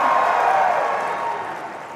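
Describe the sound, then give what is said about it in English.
An audience claps in dense, diffuse applause that stays full for about a second before easing off slightly and continuing more softly to the end. “Oh, we got... Oh! This is very nice. Becky's thank you. Getting clapped for.”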